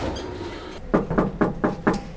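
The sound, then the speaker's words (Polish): Knocking on a door: five sharp raps in an even, fairly quick rhythm over low background noise, with no talk during the knocks. “Puka. Puka? Kto to puka?”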